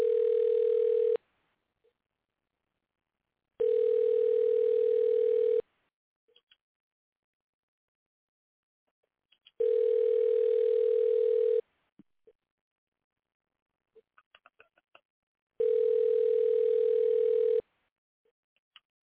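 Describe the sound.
Telephone tone heard while calling a number back: four long, steady, even beeps at regular intervals with silence and faint clicks between them. No one talks.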